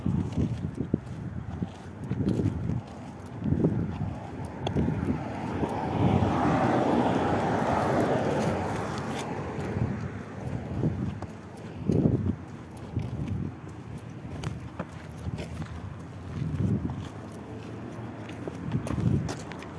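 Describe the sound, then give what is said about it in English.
Footsteps of an old man walking by, soft, slow and regular thuds repeating many times, with a broad rushing swell of background noise building and fading in the middle. “Hold on, someone's walking by. Some old man is walking.”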